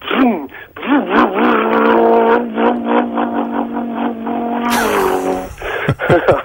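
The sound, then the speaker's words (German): A man's voice imitates a high-revving, air-cooled four-cylinder boxer engine accelerating on a highway. The loud, buzzing drone holds a steady pitch before wavering and breaking up near the end. “Ja, das ist ein hochdrehender, luftgekühlter Boxermotor, damals noch mit 4 Zylindern. Ja. Wenn der mal da über den Highway gefahren ist und auch mal hochbeschleunigt, das war dann so...”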